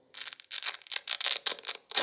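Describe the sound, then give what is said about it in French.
Velcro straps on a red backpack-style schoolbag are fastened and ripped apart again and again at home. Many short, raspy tearing bursts come in a quick, uneven rhythm. “À la maison, il n'arrête pas de jouer avec les scratchs. Ça fait du bruit et c'est amusant.”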